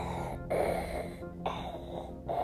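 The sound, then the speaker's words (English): A voice imitates the laboured breathing of someone wearing a mask on a ventilator, with a few long rasping, hissing breaths separated by brief pauses. “Kind of like that, because he has a mask over his face and a ventilator, because he doesn't know how to, he can't breathe without help.”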